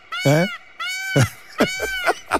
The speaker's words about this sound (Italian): Belli i pavoni, per carità, però c'hanno quel verso disgraziato che è una cosa quasi da film dell'orrore.